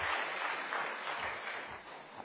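Church audience applauding to welcome a pastor: steady, dense clapping from many hands, fairly soft and even throughout, easing slightly toward the end.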